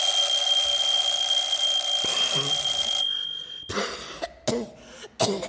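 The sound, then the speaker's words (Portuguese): An alarm clock rings as a sound cue during a theatre rehearsal of a play: a loud, continuous, shrill ringing for about three seconds that cuts off abruptly, followed by a few coughs or throat-clearing sounds. “Acorda Neg, fazendo tocar o despertador.”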